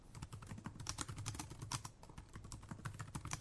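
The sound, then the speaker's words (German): Fingers type text on a computer keyboard in a quiet, rapid and irregular patter of many small plastic key clicks. “das ist das Geräusch der Tasten meines Computers, wenn ich einen Text tippe.”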